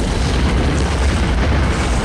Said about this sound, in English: As the tanks hit ground, a huge fireball expands from the impact.